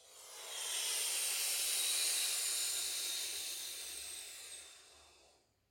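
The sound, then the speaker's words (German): A long, hissing inhalation drawn through a rolled tongue during a breathing exercise: one continuous airy breath that swells in, holds steady for several seconds, then fades out. “Durch die eingerollte Zunge einatmen, wieder aufrichten, den Atem aufs Neue oben halten im Kehlverschluss.”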